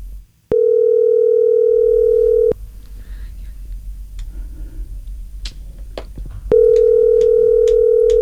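A telephone call's ringback tone sounds twice, each a loud, steady electronic tone lasting about two seconds. Between the two rings comes a pause of faint background noise.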